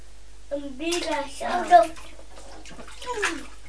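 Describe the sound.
A young child splashes in bath water, with soft, intermittent sloshes and drips under the talk of an adult and a child.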